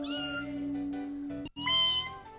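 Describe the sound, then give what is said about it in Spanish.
People imitating a cat's meow: sustained, wavering, overlapping voiced mews in two bursts separated by a brief silent gap, the second starting with a rising cry. “A ver, ¿cómo hacen los gatos?”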